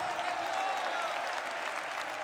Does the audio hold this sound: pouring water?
no